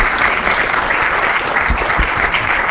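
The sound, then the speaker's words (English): Audience applause at an institute ceremony honouring three colleagues: loud, dense, steady clapping from many hands that holds evenly throughout. “So these three people, Walter Cohn, Pierre Meister, and Tony Starris, deserve a big hand for having introduced attoseconds in this institute. So please congratulate everybody.”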